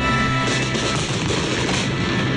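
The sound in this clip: Rockets from the opening of a huge outdoor fireworks display as a storm with strong winds hits, a dense, loud, continuous roar of crackling and booming that stays loud throughout.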